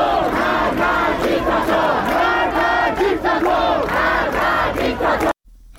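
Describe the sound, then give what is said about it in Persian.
Student protesters at a university dormitory sit-in chant a slogan in unison, a loud, rhythmic wave of many voices rising and falling in repeated phrases before cutting off abruptly near the end. “همکنون دانشجویان در اونجا تحسنی و تجمع اعتراضی رو برپا کردن و در حال شعار دادن هستن. صدای یکی از شعارها رو میتونیم بشنویم.”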